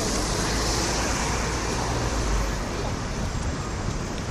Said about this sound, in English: So I'm going down 42nd Street toward Times Square. I'm between 8th Avenue and 7th Avenue.